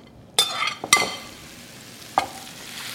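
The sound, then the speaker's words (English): Onions tossed into a smoking-hot skillet: a few sharp knocks and clinks stand out over a faint, steady hiss of frying. “When the skillet is smoking, it's time to throw it in. Okay, and in go the onions.”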